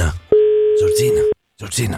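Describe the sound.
A telephone tone sounds as a call is placed on a dial phone to reach a prize winner: one steady, mid-pitched tone lasting about a second, with a voice talking over it before and after.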